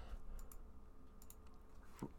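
Someone types on a computer keyboard, a sparse run of faint, light key clicks with one slightly heavier tap near the end.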